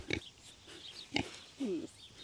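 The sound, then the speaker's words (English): Grunting from hand-raised piglets, a litter taken from a first-time mother, heard as three quiet, short snorting bursts, the last one higher and more tonal. “Now the piglets are coming up to us. Yes, they are. Ooh, are you looking for a treat?”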